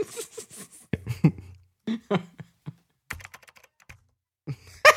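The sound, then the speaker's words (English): Keys clatter on a computer keyboard as a message is typed out in Skype: many sharp, irregular clicks come in short bursts separated by brief silent gaps, with a denser flurry of keystrokes at the start and end. “Wow, it sounds really bad when I type it out.”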